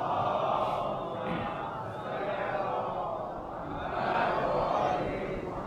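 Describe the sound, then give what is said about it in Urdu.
An audience recites salawat in unison, a steady, dense mass of many voices that keeps going throughout and swells slightly toward the end. “صلوات پڑھیں محمد والے۔”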